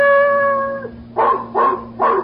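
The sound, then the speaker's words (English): A large Belgian shepherd dog bays unhappily outside a small New York apartment house, looking up at a ground-floor window: a long, steady whining howl, then three short, loud barks. “outside, a large Belgian shepherd dog stood looking up at a ground floor window and baying unhappily.”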